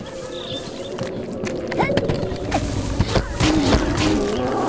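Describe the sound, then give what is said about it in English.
A rhino charges and runs over the player in a video game: heavy, rumbling footfalls and thuds with rough animal cries, building in loudness toward the end. “I got ran over by that rhino that I called stupid. His twin brother ran over me.”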